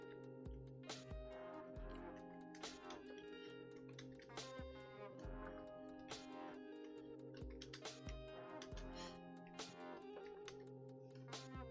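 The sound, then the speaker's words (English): Rapid keystroke clicks from typing on a computer keyboard, a long run of sharp taps in an uneven rhythm over a steady tonal hum. “Let me just type this here.”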